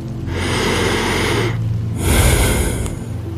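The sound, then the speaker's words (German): A deep breath drawn in, heard as two long, loud airy rushes of breath with a short pause between them, no talking. “Atme einmal tief ein.”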